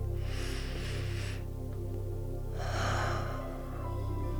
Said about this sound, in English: So close your eyes. Take three deep, big breaths.